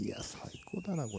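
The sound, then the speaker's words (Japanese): Birds sing outside, faint chirping calls heard beneath speech. “なんか鳥の声が聞こえてますけど ね。”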